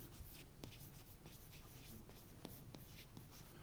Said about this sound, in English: It's really a pleasure to write with this.